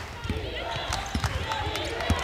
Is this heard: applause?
no